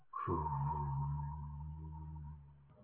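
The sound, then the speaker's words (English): A voice imitates a blown breath, starting with a rolled R that slides into a long, sustained 'oo'. A buzzing low hum sits beneath a thin, steady, high tone that holds for over two seconds. “It's like an oo sound, and if you blow it, you can put an R at the beginning.”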